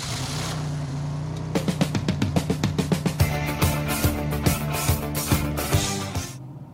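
A car driving away, its engine a steady low drone carrying rapid, evenly spaced pulses that fade near the end, with no voices.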